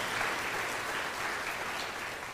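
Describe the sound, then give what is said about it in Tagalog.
Applause from a church audience honouring the tech and media team: dense, continuous clapping from many hands that holds at an even, strong level throughout. “Palakpakan natin ng Panginoon sa mga tech, media team.”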